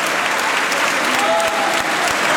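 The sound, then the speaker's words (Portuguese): Members of the Portuguese parliament give a standing ovation, with PSD deputies and many Socialist Party deputies clapping. The applause is dense and continuous, staying loud and steady throughout. “Aplausos de pé da bancada do PSD e também de muitos deputados do Partido Socialista, que aplaudem esta leitura que Aguiar Branco fez deste momento, inusitado também.”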